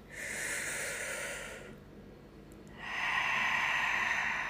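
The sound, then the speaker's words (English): A big deep breath in, a soft rushing inhale, followed by a short quiet pause and then a longer, louder airy breath out, with no talk. “remember to take a big, deep breath and a big breath out and one more because it felt so good.”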